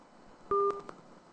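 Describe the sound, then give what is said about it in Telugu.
Telephone signalling tone as a call comes in: a single short two-note electronic beep that stands out over a faint hiss, then a softer tail. “Mind media ప్రసారాలని వింటున్నారు కనుక ఇప్పుడు ఏదో ఒక call వస్తుంది, call attend అవ్వడం”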